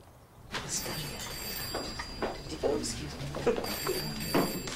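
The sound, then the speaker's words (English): A telephone ringing at a staff party in an old hospital, a thin high ring running under lively chatter and voices. “A woman with glasses leaves the party to answer the phone.”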